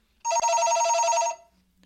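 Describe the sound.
A telephone rings once with a bright, trilling burst, rapidly pulsing and lasting about a second, then falls silent with no voices over it.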